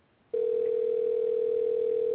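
A telephone dial tone sounds for a prank call. It is a steady, loud, unbroken hum that begins abruptly after a brief near-silence and holds to the end, with no talk.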